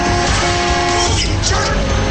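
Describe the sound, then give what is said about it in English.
Car driving into a tunnel: a loud, steady roar of engine and road noise that holds without a break across the whole stretch. “The Trillings and Cooper drive into the tunnel.”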